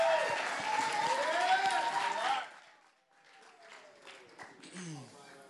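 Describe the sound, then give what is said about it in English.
An audience applauds a guest preacher at an evening service, loud and dense clapping and cheering for about two seconds before it fades out, followed by a man speaking. “So y'all do me a favor and help Chase feel welcome one more time. Y'all give it up for Chase.”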